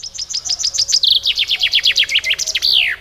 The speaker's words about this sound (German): Ja, weil wir haben gesucht, wie er chirpt, der Buchfink.